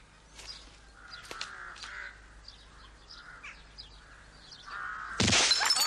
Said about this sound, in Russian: Метким выстрелом он попадает в стакан.